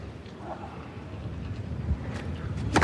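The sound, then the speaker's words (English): Strong wind rips across Court Philippe Chatrier during a clay-court tennis match, blowing sand around. It comes through as a steady, low, rumbling roar with gusty buffeting that grows slightly louder toward the end. “The wind is really ripping around Court Philippe Chatrier. The sand is being blown all over the place.”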